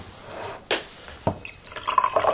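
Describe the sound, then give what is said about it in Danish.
Liquid poured into a cup, opening with a couple of splashy bursts and then settling into a steadier, brighter trickling fill toward the end, with no talking. “Skal jeg hælde noget til dig?”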